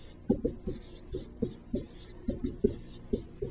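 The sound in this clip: Pen writing on scratch paper during a calculus lesson: many short, scratchy strokes in an uneven rhythm, with small taps where the tip meets the page, fairly soft and with no talk.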